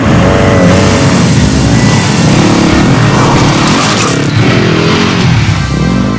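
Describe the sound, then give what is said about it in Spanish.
Motorcycle engine revving hard as the bike accelerates away at full speed along a lonely secondary road: a loud, continuous roaring drone with a rough, buzzing texture throughout. “camina con decisión hacia la moto. Se monta, se coloca el casco y se baja la visera del mismo. Acelera y se aleja a toda velocidad por una carretera secundaria y solitaria.”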